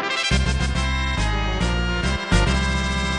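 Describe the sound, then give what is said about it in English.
Victory fanfare from the Final Fantasy IV video game plays alone as loud, bright chiptune-style music, with rapid repeated opening notes, a brief pause, then sustained chords and a second short break before the melody continues. “That's the so-called victory fanfare from the original Final Fantasy game on the NES.”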